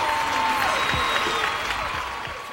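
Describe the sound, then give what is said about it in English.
A studio audience applauds to open a talk show taped in Los Angeles, with dense, continuous clapping that holds steady and eases off slightly toward the end. “Now, put your hands together for the Shiznit.”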